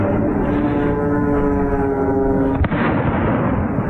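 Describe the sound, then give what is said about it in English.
A single sharp gunshot, the first of eight fired, cracks about two-thirds of the way through over a loud, steady harmonic drone. “So 8 shots total, first shot fired.”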